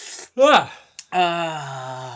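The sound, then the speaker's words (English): A person's yawn: a short voiced gasping intake breaks off, then comes a long, steady, drawn-out vocal exhale that fades slightly toward the end. “Got my beginning of show yawn out the way.”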